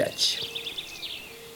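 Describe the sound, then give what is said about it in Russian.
Birdsong in a forest on a summer day: bright, rapid high chirps and warbling trills that last under two seconds, fairly faint and heard alone with no talk. “Услыхал медведь прекрасное пение какой-то птицы и говорит: «Братец волк, что это за птица, которая так прекрасно поет?»”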